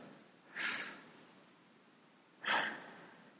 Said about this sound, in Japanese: 深呼吸をね、まずはして